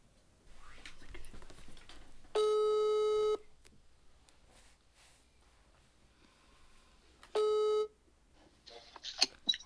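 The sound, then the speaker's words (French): Ringback tone on an outgoing telephone call: two steady, buzzy electronic rings, each about a second long and separated by several seconds of quiet, with faint murmuring and rustling between them. “Let's call Marco. Ok, donc téléphone à Marco.”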